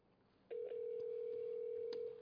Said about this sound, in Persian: ما منتظریم ببینیم وصل میشیم یا نه. یا ارحم الراحمین. خب دوباره تماسمون رو قطع شد.